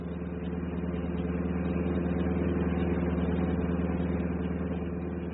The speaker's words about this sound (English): Must get pretty boring just driving every day like this. Oh, you get used to it. Like any other job. I figured out once that you had to be a certain type to be a bus driver.